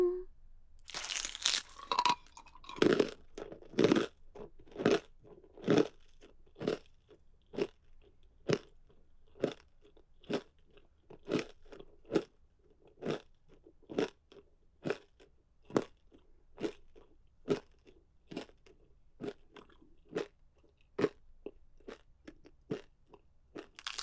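Crunchy chewing of cartilage: many sharp, crackling crunches in a steady, regular rhythm, each bite crisp and distinct against quiet.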